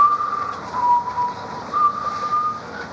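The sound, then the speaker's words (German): Someone whistles a church hymn melody in a few long, sustained pure notes that step down and then back up, moderately loud over a steady background hiss. “Was pfeifst du da für eine komische Melodie? Das ist ein Kirchenlied.”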